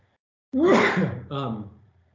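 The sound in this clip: A single sneeze: one sudden loud voiced burst that breaks briefly and ends in a shorter second part, alone after a moment of quiet.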